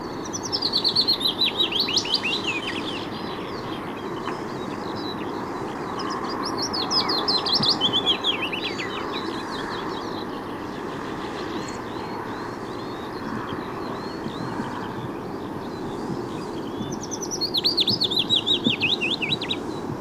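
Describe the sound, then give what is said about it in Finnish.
Willow warbler song: three sweet, high, cascading phrases, each about two seconds long, at the start, middle and end, over a steady low background hum. “Ja nyt pajulintu.”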